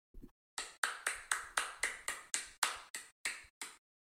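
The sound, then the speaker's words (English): Slow, evenly spaced clapping stands in for a fake audience: one faint tap, then more than a dozen single sharp claps in a regular rhythm, each with a short decaying tail. “Start clapping. And that is the sound of my fake audience.”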